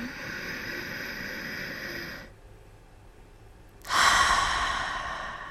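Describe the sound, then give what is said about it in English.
A person demonstrates deep breathing, in through the nose and out through the mouth. A long, breathy rush lasts about two seconds, then comes a quiet pause, then another strong breath begins abruptly and fades. “You could take 3 deep breaths, and the deep breaths are in through your nose, making a little bit of noise, holding at the top, and then exhaling through your mouth. It sounds something like this.”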